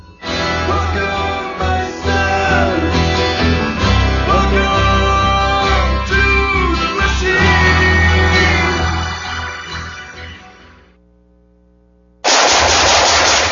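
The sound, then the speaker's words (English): Rapid automatic gunfire from a gun being shot: a dense, loud barrage of sharp cracks runs for about ten seconds, dies away into near silence, then a sudden loud burst of noise cuts in at the end. “Nice shooting.”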